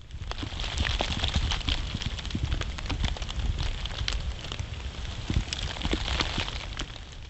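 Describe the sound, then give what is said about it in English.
Melting ice drips from ice-coated tree limbs after a night of freezing rain in January in Blacksburg, Virginia. Many irregular drips and patters fall over a steady wash of noise, forming a dense, continuous crackling texture with no voices. “If you guessed ice melting from trees, you were right.”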